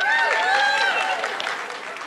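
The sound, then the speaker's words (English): An audience applauds in a brief, dense burst of clapping, with a few raised voices and whoops mixed in. The sound eases slightly toward the end. “We're going to play a game called Let's Have a Hand for my mother-in-law who made these paddles.”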